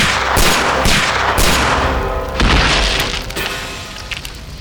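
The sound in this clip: Shotgun blasts fired into trees: four loud, booming shots in quick succession over the first two and a half seconds, each trailing into a rumbling decay that slowly fades.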